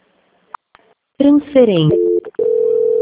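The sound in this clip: A steady telephone tone sounds as a call is being transferred, holding level and even after a short burst of voice.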